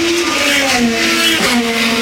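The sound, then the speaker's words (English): IndyCar race cars at a Grand Prix in the nation's capital let out loud, high-revving engine drones whose pitch falls as they pass. A second car follows partway through. “And of course, that's the sound of some Indy cars.”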